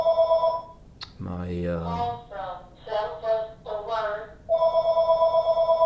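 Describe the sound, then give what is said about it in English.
A telephone rings with a pulsing, steady electronic tone at the start, then stops while people talk, and the ringing returns near the end. “Do you need to get the phone?”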